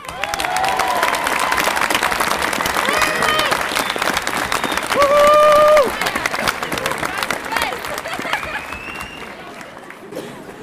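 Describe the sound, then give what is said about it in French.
Supporters and fans applaud and cheer Bryan Bouffier, winner of the Monte Carlo Rally, with steady crowd clapping and voices mixed in, swelling briefly louder midway and easing off near the end. “Avec ses supporters et ses fans, accueille son champion Brian Bouffier.”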